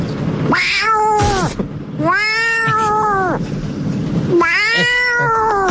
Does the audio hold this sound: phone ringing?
no